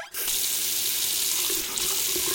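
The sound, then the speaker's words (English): A running tap at a sink while hands are washed: a steady, loud hiss of flowing water that starts abruptly and continues evenly. “He went to the sink and washed his hands.”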